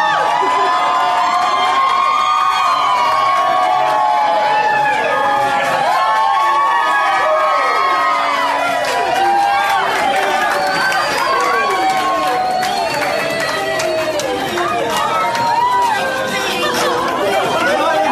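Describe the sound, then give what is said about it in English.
Crowd at an airport arrivals area greeting a family bringing home an adopted son and daughter: loud, continuous excited chatter and cheering with children shouting throughout. “And this is just some audio of when they were at the airport walking through.”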